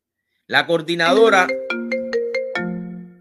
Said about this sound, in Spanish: no entiendo por qué me están llamando en este momento, cuando estoy hablando.